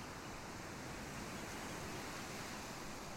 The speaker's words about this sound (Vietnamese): âm thanh rì rầm của những con sóng và khung cảnh mê hoặc của biển cả